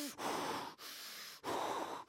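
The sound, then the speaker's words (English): Heavy breathing imitated by a voice, copying a wide-eyed hero working himself into a berserk rage: a few loud, rasping breaths in steady rhythm, each separated by a short pause. “He gets his eyes big, and then he breathes heavily. He goes,”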